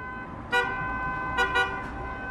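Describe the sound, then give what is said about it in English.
Hooting from a minibus taxi horn on busy city roads, a steady buzzing tone punctuated by a few short, brighter blasts over a continuous traffic rumble. “Modiba hoots to attract customers.”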